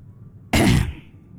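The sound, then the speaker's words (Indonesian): A single loud, short cough or throat-clearing burst from someone with a bad cough and feverish chills, alone between quiet stretches. “Batuke nemen nih.”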